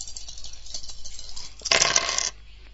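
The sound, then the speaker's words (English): Dice rolled in a computer dice game, a short bright rattling clatter lasting about half a second, standing out loudly after a quieter stretch. “Hold dice 4. Second roll.”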